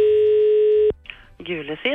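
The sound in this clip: Steady telephone dial tone on a call to directory enquiries: a loud, even hum holds for just under a second, then cuts off abruptly and a voice starts speaking.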